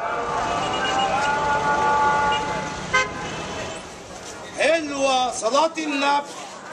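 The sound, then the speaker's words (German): Car horns honk in jammed Cairo traffic, where shared taxis tangle on the Nile bridges: a few short toots and some longer blasts rise over a constant roadway rumble. “Ununterbrochen wird hier gehupt und gerührt. Sammeltaxis verknäulen sich auf den Nilbrücken.”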